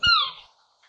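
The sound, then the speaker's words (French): A scops owl gives a single short cat-like call, a meow-like cry with a slight downward slide in pitch. It sounds alone, fairly loud, and fades quickly into near silence. “Il y a un autre petit oiseau de nuit où leurs cris peuvent ressembler à des miaulements. J'en ai croisé quelques-uns en partant de chez moi. C'est le hibou petit duc”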